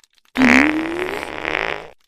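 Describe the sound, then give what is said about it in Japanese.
One loud, buzzy fart lasts about a second and a half, its pitch rising slowly before it fades out. No other sound accompanies it. “このままおなら嗅ぐと、もっと気持ちよくなれるわ。ほら。”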